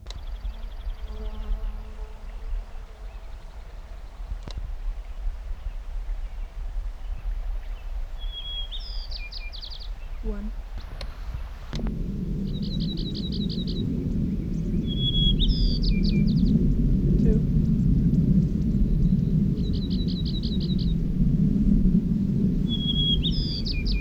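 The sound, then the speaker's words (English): White-crowned sparrow song recorded at Cottonwood Creek, 7,900 feet, in Mineral County, Nevada, in June: several short, high, buzzy phrases repeat at intervals over a steady low rumble. “White Crown Sparrow A.”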